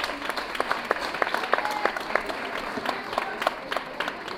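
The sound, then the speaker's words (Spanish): Audience applause at a live concert for a band's demo launch: dense, steady clapping with sharp individual claps standing out, sustained at an even level throughout. “Un aplauso allá.”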